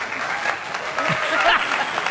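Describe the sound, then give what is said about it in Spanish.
An applause sound effect plays as a short, dense burst of crowd clapping that holds steady and fairly loud for its whole length. “¿Por qué no muestra lo que vamos a tener cuando alguien haga algo para destacar, como para aplaudir?”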